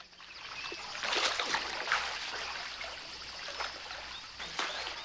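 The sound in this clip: Water splashes as a shirt and trousers are rinsed in a river while someone swims, with a few soft sloshes and a brief splash near the end over a faint, steady trickling flow.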